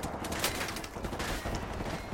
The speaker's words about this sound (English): And just shoot it up.